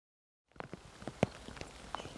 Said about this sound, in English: It's starting to rain. Believe it or not, in this little idyll, we're having a tropical downpour.